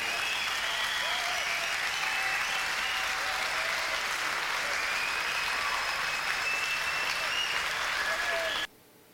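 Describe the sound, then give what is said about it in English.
Audience applause welcoming the other members of a band at a live performance, with sustained, dense clapping at a constant level that cuts off abruptly near the end. “Please welcome the other members of the band.”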